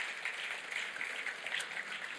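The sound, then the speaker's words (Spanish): A Spanish-speaking church audience applauds the Lord during an evening service. The clapping is fairly faint, a steady wash with small rises and dips. “Denle un aplauso al Señor en esta noche.”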